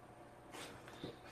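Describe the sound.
Faint dog sounds: a couple of brief, soft snorting or whimpering noises from a pet dog, with no talk over them.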